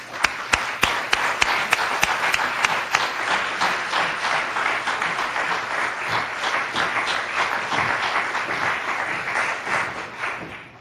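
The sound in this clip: An audience applauds to welcome Lise Bissonnette at an event at the National Assembly library. Sharp, distinct claps at first build into steady, dense clapping that holds, then fades away at the end.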